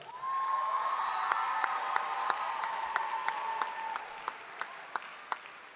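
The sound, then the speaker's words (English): Audience applause welcoming a speaker to the stage: dense, steady clapping that holds at an even level throughout, with a few sharper, louder individual claps standing out toward the end. “please welcome up to the stage, put your hands together for Lily.”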